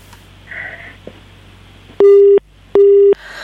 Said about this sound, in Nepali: उहाँको टेलिफोन पनि कटेको छ